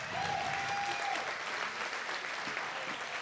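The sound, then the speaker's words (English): An audience at a comedy show applauds the comedians with dense, steady clapping that stays loud from start to finish. “Let's give all the comedians you're going to see a round of applause real quick, though.”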